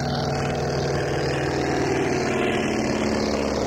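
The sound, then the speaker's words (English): A PT-17 biplane's propeller engine drones during takeoff, a loud, steady low rumble with a rapid throbbing beat and no voices. “What I mean is a PT-17 on takeoff.”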